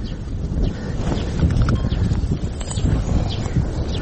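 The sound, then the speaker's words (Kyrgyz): Horse hooves clop steadily while a farrier shoes a horse in a rural village as herders move to summer pastures, a dense run of many hoof knocks over a rough, continuous background. “Эл жайлоого көчүп жаткан маалда атын такалатып келгендердин катары да калыңдайт.”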